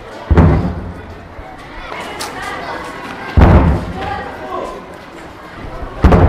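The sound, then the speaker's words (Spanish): Three deep, heavy booms of US artillery shelling the west side of Mosul, heard from a school yard, spaced a few seconds apart, each a loud low thud with a rumbling tail, with murmuring voices between them. “desde el patio de la escuela Kufa, se escuchan los graves sonidos de una unidad de la artillería de Estados Unidos que bombardea el lado oeste de la ciudad”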